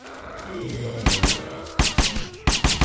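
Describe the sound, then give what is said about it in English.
Gunfire while shooting zombies in a video game: short bursts of several sharp, clipped shots come in quick clusters, with a person talking underneath. “So we're just kind of running around shooting zombies.”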